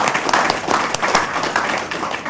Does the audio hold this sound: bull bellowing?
no